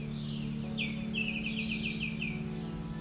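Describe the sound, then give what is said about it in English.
Birds singing in the jungle, a quick run of short, downward-sweeping chirps over a steady high buzz and a low hum. “and the birds all around you. Every part of the jungle,”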